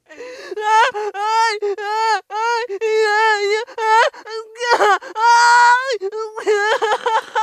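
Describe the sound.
Women wail and cry loudly in a gym during an emotional release session. Long, wavering, high-pitched sobbing wails overlap and follow one another almost without pause, staying loud throughout.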